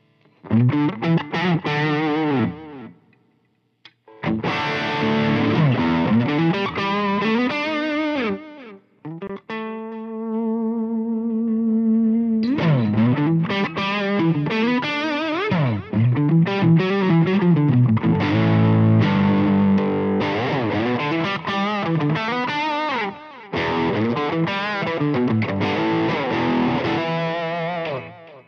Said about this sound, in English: so what you're hearing is that amp plugged right into the Cab M, and that's it.